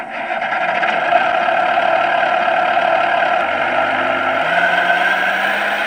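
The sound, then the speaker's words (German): A steady engine drone from a miniature 1:12 scale model wheel loader, about 57 cm long, imitating a full-size machine: a continuous mid-pitched hum at constant loudness, with a low tone that shifts slightly upward near the end. “Klingt wie ein echter Radlader, ist aber nur eine Miniaturausgabe im Maßstab 1 zu 12.”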